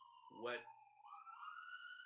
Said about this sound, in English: For our discussion, to have a siren in the background.